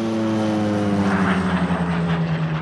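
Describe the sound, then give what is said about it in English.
Propeller aircraft flying overhead, tied to old military Tiger Moth biplanes used for dropping fertiliser over farms: a loud, steady droning engine hum with sustained harmonic tones that swell slightly midway, heard alone with no voices. “Old military aircraft like Tiger Moth biplanes were perfect for dropping fertiliser,”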